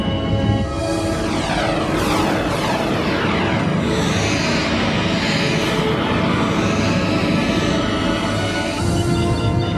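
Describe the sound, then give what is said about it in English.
Spaceship thrusters engaging: a loud, steady roaring drone with whining tones that sweep and shift in pitch, continuing without a break for about ten seconds. “Initiate transit mode, 3-axis stabilization. Aye, sir. Engage thrusters.”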